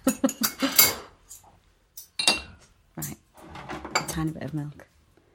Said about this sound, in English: I've got two spoons. Is that a Yorkshire thing? You always have two spoons to stir your tea.